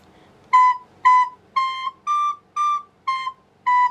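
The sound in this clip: Recorder notes played one at a time, the middle finger covering the second hole while the other fingers stay in place. Seven clear, steady tones sound alone, evenly spaced, each about half a second long with short gaps between them.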